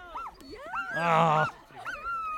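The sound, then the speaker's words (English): A racing dog in a video game whines and yips in several rising and falling cries. A louder, sustained whine swells in the middle before the shorter yelps return. “Yeah, that's my dog.”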